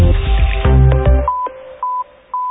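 Telephone keypad DTMF tones dial a code, three short, steady beeps evenly spaced, each clear and alone.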